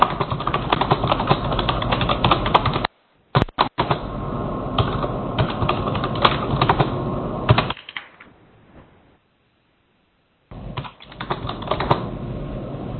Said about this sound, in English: Consulate, please, we can hear you type. Can you mute your Adobe Connect line?